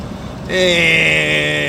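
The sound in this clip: Car rolling onto gravel: a steady, loud crunching rumble with a low engine hum begins abruptly after a quieter half-second and keeps going to the end.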